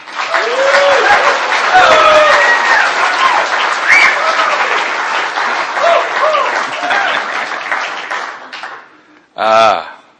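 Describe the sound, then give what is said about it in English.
Audience at a recovery meeting applauds to welcome a speaker: loud, sustained clapping for about nine seconds with voices heard over it, then a single voice after the applause stops. “Would all of you please give an enthusiastic welcome to Earl?”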